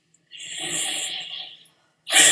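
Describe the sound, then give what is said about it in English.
A big, deep breath: a long, airy rush of breathing lasting over a second, followed after a brief pause by a second, brighter and louder breath sound. “Big, deep breath.”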